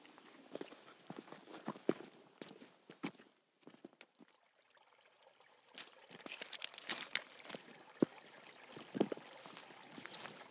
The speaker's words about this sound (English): Despite the weather and the descent being a bit slippery because it's quite slick when the rocks are wet, we've come down quite safely